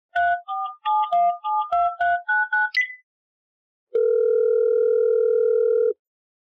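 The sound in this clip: A telephone call is dialed with a rapid run of short keypad beeps at varied pitches, then a pause, then one long steady ringing tone.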